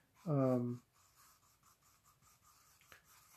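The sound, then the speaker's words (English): Pen or marker scratching across paper as a small puffy cloud is drawn by hand: faint, soft scratchy strokes repeating unevenly, after a short voiced sound at the start. “But now I'm gonna go ahead and draw a little puffy cloud underneath him”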